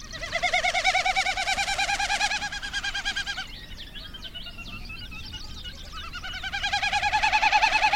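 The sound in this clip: Bird calls made of rapid, throbbing warbled notes stacked at several pitches, continuous and fairly loud. A brief stretch of thinner chirps comes in the middle before the pulsing calls return.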